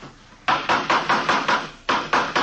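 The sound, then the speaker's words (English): A hammer taps while someone builds a coaster cart: a quick, evenly spaced run of sharp knocks, a short pause, then a few more taps at the same brisk pace. “Say, would you hand me that hammer there, officer?”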